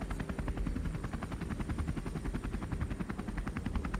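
Helicopter rotor blades chop in a fast, even rhythm, a steady stream of rapid thumps with a thin whine above, continuous and fairly faint from start to end with no voices over it.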